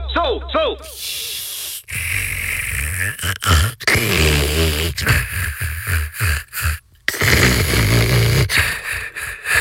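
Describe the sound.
Loud snoring with rasping snorts and hissing breaths, repeated in an irregular run of snores that start and stop abruptly and vary in tone throughout.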